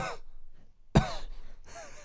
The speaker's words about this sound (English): have a little cough there